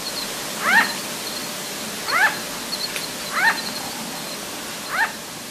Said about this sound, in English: Yep, that is correct. That's the little yap of a sugar glider. They live in social groups and they're very vocal